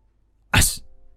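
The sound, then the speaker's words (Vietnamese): A single sharp, forceful sneeze from a man eating a bowl of beef brisket pho: one loud, breathy burst with a hissing edge that fades quickly into quiet. “đang ăn bát phở gầu bò bỗng dưng hắt hơi mạnh”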